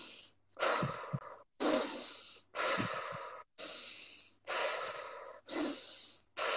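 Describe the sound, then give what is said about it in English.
A breathing exercise of deep breaths in through the nose and out through the mouth. Six long, hissing breath sounds come in a steady rhythm, each about a second long and separated by short pauses. “So basically, it's just like you're in through your nose, out through your mouth.”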